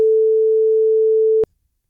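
A single steady telephone ringing tone sounds on a call placed to a listener. It holds one even pitch for about a second and a half, then cuts off abruptly into silence.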